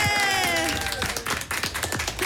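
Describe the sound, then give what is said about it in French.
Applause from a studio audience welcoming a guest during a radio show: a voice rings out at the start, then a quick, lively run of claps follows. “Tonnerre d'applaudissements pour Alexandra qui ouais est avec nous.”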